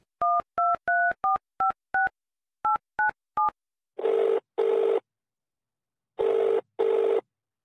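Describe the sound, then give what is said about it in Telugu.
Telephone keypad dialing: nine quick touch tones in an uneven rhythm, then the ringing tone of the call in two double bursts separated by a pause, all clear with no voices. “Phone చేద్దాం.”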